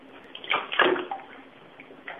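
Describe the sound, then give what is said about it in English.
Animals swimming and splashing in water: a few soft splashes and sloshes over a steady watery wash, with no voices. “Got some swimming going on.”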